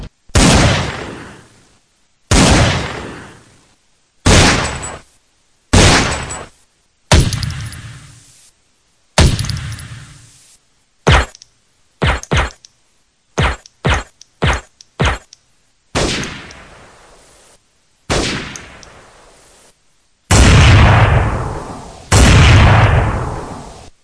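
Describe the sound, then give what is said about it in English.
Gunshot sound effects from a gun sounds application play one after another: many sharp, loud blasts with short decaying tails, separated by brief silences. A quick cluster of rapid shots comes midway, and two longer, heavier booming blasts close the sequence. “So in any case, turn your volume down. Here are the gun sounds. This is 52 seconds.”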